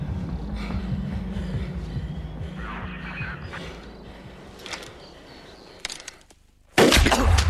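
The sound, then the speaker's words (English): Gunfire in an audio drama battle: a few sharp cracks cut through a low rumbling bed, then a sudden, loud, dense burst of shots closes the scene. “Decker falls to the ground. The other two are now showered with gunfire.”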